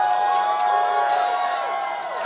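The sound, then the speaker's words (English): Crowd cheering for a talent show contestant: a loud, unbroken roar of voices with shrill whoops and screams, sustained at a high level throughout. “All right, ladies and gentlemen, put your hands together.”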